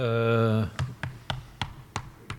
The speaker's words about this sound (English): if you'd like to throw the dice. Oh, it's seven.